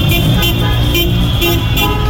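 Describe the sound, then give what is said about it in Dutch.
Car horns honk amid a street victory celebration on Rotterdam's Westkruiskade, with cars, flags and festive crowds filling the street. Repeated toots ring over a continuous loud wash of traffic and crowd noise. “Ook hier op de Westkruiskade wordt er flink getoeterd en is er feestvreugde.”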